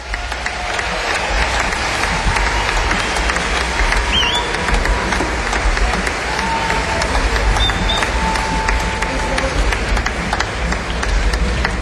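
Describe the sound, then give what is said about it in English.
Audience applause at a jazz concert greeting a conga player as he comes on stage. The clapping is loud, dense and sustained at an even level for about twelve seconds. “And you guys, please welcome the living legend, Maestro Bill Summers on congas.”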